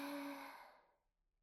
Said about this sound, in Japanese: 吸って、吐いて、